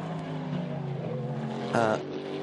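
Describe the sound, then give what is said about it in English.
The second-place race car comes out of the Arnage corner: a steady engine drone runs under commentary talk and swells into a brief louder surge near the end. “I was thinking that was a car coming back to unlap themselves, but in fact that is the second place car coming out of Arnage”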